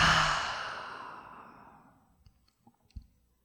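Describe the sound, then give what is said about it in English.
A slow exhale through the open mouth, a soft breathy rush that starts fairly strong and fades away over about two seconds, followed by a few faint clicks. “full inhale in through the nose. Open the mouth and exhale.”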